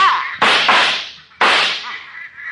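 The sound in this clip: Sharp gunshot reports ring out during a bird hunt, a few loud cracks that each decay quickly, separated by brief gaps.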